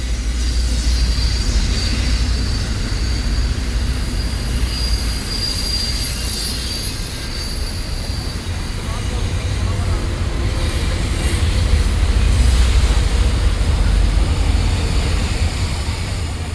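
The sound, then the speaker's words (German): A long freight train of coal-laden wagons passing: a loud, continuous rumble of wheels on rails with high, thin squealing tones over it, steady throughout. “Nachts fahren hier alle paar Minuten lange Güterzüge, Waggon für Waggon mit Kohle beladen.”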